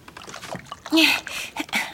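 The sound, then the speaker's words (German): Water poured from a large jug into a bowl while making butter gives a brief splashing slosh, with a louder gush midway and a few smaller splashes after. “So, jetzt gieß das Wasser in diese Schüssel und dann kommt die Butter hinein.”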